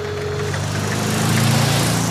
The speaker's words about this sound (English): suddenly a magnificent motor car drives past.